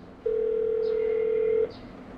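A steady telephone tone lasting about one and a half seconds plays while someone repeatedly dials two daughters' phones, even in pitch over a low background hiss.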